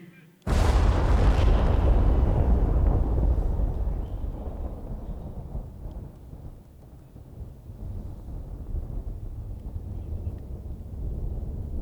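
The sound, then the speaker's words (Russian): A hand grenade explodes after its pin is pulled: one sudden, deep and loud boom, followed by a long rumbling decay that lingers for several seconds over a low background noise. “В левую руку гранату, ближе к груди. Выдернул чеку. Раз, два, три.”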